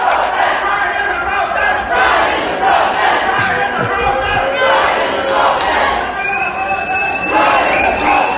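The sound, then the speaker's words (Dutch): A crowd chants and shouts together while marching in a small pride protest on the seaside promenade in Ostend after a show. The voices form a loud, continuous roar that rises and falls in rhythmic surges. “in Oostende zijn jullie na de voorstelling ook op straat gegaan, een soort mini-pride. Dat was een primeur voor Oostende, dat klonk ongeveer zo.”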